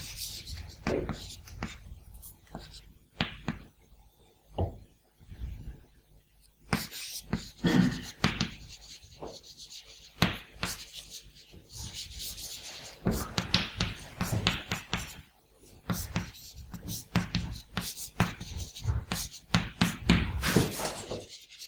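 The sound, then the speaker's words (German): Someone writes out a logic rule during a lecture on premises and conclusions. Quiet scratching strokes and sharp taps come in irregular bursts with short pauses between them, carrying on for about twenty seconds. “Dann schreiben wir das mal hin.”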